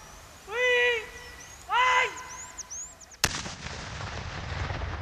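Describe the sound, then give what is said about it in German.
A controlled detonation of a landmine during mine clearance gives a single sharp blast, followed by a lingering rushing rumble. Two short tonal calls are heard before it. “Ist die Ratte fündig geworden, kommt ein Räumungsteam zum Einsatz. Die Mine wird kontrolliert gesprengt.”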